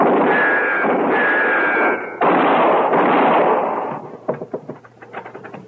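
A gunshot fired from a barn roof: a long, loud burst of broad, rushing noise, then a series of sharp, quieter knocks trailing off.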